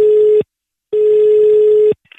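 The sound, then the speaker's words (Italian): Telephone line tones sound as a prank call is placed: a clipped beep, a pause, then a longer steady beep of about a second, loud and alone, followed by faint noise. “Andiamo al telefono”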